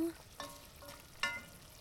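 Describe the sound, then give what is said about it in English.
Food sizzles as it is tipped from a frying pan into a soup pot, a faint, steady frying hiss broken by a few soft bursts of scraping and stirring. “Okay, I think we can take this out of the pan and into the pot you go.”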